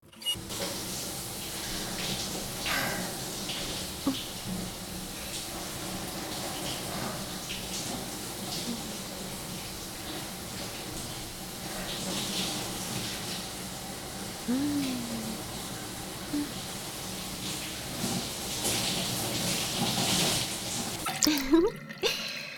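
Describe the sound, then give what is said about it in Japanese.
Water runs steadily as someone is rinsed off after washing, a continuous, fairly quiet splashing wash with scattered drips, cutting off abruptly just before the end. “さーて、それでは洗い流していきましょうか。”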